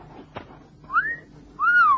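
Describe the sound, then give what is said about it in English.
A man whistles appreciatively at a young woman in two short whistles. The first curves upward briefly. The second is longer and louder, arching up and then sliding down, over a quiet background. “that was not a salacious whistle”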